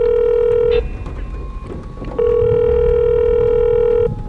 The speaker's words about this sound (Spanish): ¿Por qué me llamas al móvil?